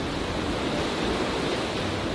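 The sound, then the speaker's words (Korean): Rushing roar of a mountain waterfall where streams from several peaks join and drop nearly 30 metres, a dense, unbroken wash of falling water at steady loudness throughout. “천왕봉과 중봉, 하봉의 물이 합쳐져 30m 가까운 낙차로 떨어지니 이거 장관입니다.”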